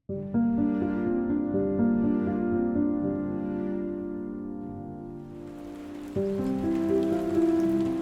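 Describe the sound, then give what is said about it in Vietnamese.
Heavy rain pours down over the countryside in the early days of winter, a steady hiss over sustained low musical tones, with the rain growing stronger in the last few seconds. “Những ngày lập đông, cơn mưa trút xuống làm cho cảnh vật xung quanh thành một màu trắng xóa”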